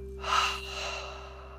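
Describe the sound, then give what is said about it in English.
One slow exhale through the mouth during a guided meditation, a soft, airy breath that swells quickly and then tapers off gradually over about a second and a half above a steady low hum. “And exhale through the mouth. Inhale through the nose. And exhale through the mouth.”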